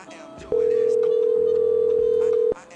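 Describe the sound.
A telephone dial tone sounds before a call, a steady, unbroken single tone lasting about two seconds, with voices and background noise before and after it.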